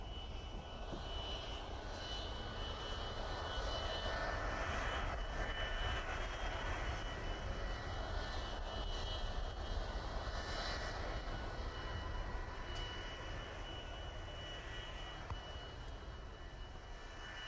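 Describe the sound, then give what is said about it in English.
An Aer Lingus airliner arriving at Connacht Airport from Dublin: a steady, fairly faint aircraft engine roar, broad and even, that holds constant for the whole stretch. “Attention please, Connacht Airport announces the arrival of Aer Lingus flight 4966 from Dublin.”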